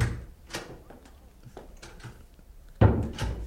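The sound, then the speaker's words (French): A door sound effect made by a radio sound effects artist: a few light knocks and clicks, then a louder, heavier thud near the end. “Un bon bruit de porte.”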